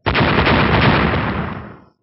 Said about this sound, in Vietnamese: Từng tiếng nổ vang lên liên tiếp